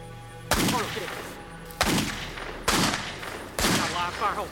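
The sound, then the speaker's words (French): Four loud, sharp gunshots from a .357 Magnum revolver fired toward a forest, each with a sudden crack and a rumbling decay, spaced about a second apart. “Il a brandi un Magnum 357 et a commencé à tirer en direction de la forêt.”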